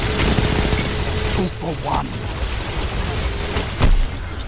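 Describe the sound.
A fusion rifle fires in a competitive online shooter match, producing harsh, noisy bursts of weapon fire with a sharper loud blast near the end.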